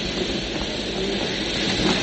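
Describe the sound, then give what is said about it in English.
Continuous rumble of a train at a station: a dense, steady roar with no distinct clacks or squeals standing out, moderately loud and even throughout, with no voices. “Perhaps we ought to get on the train.”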